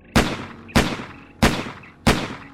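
Four sharp video-game gunshots ring out at an even, steady pace, each one a loud crack followed by a short decaying tail.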